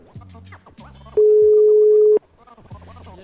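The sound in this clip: A telephone ringing tone for an outgoing call, one steady mid-pitched tone lasting about a second, comes between stretches of people talking.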